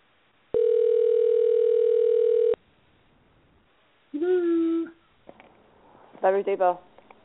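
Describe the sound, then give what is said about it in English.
A telephone dial tone plays as a call is being dialed: one loud, steady, buzzy tone lasting about two seconds. Then silence, then voices. “And we're dialing. And we're dialing. Oh, here we go.”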